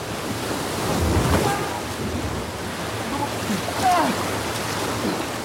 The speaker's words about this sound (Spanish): El remolino del oleaje en la orilla mientras la marea sube lo empuja hacia las rocas.